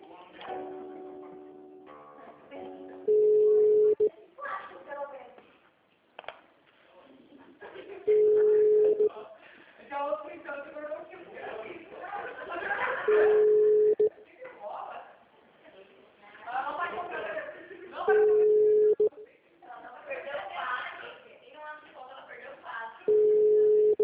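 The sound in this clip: Telephone tones while a call is being transferred: five short, steady beeps at even intervals of about five seconds, with voices talking between them.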